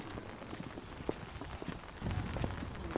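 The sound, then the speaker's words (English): Scottish rain patters on a bright yellow party campaign umbrella carried door to door in a village. It makes a faint, dense hiss of many small taps that grows somewhat louder in the second half. “That's the sound of Scottish rain, pattering on a bright yellow Scottish National Party umbrella.”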